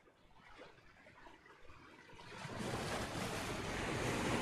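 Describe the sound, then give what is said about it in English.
Rough sea waves mix with gusting wind into a broad rushing roar that starts fairly soft and builds steadily louder, with turbulent surf surges and no voices. “You notice that the water starts to get a bit rough. And you do see storms on the horizon.”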